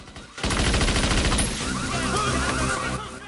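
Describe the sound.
Assault rifle gunfire from a powerboat on a river: a loud, rapid, evenly spaced burst of shots starts abruptly and rattles on steadily for about two and a half seconds before easing off.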